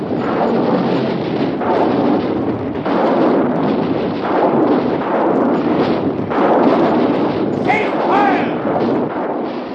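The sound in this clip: Artillery batteries firing shells in a radio drama, heavy booming blasts that roll into one another as a loud, continuous, rumbling barrage for the whole stretch.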